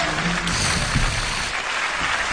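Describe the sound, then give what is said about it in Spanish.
Audience applause for Britney Spears as she is introduced on her Circus tour, a dense, even wash of clapping that continues throughout. “Sí que lle aplauden, ¿eh?”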